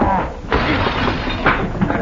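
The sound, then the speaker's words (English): Plate glass mirror shattering in a noisy burst of crashing, crackling debris, with several harsh bright surges over about two seconds. “There goes my plate glass mirror.”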